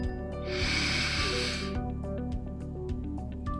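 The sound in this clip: A deep inhale through the nose during a guided breathing exercise: one long, airy, hissing intake lasting over a second, over steady soft background music.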